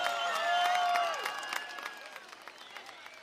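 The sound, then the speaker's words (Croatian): Audience applause and cheering for a DJ at the Zenica Summerfest evening event, loud at first with whistles and shouts, then thinning into scattered claps that fade out. “zamolit ću vas jedan veliki aplauz i vrisak za DJ Feđu koji nas je zagreo evo večeri.”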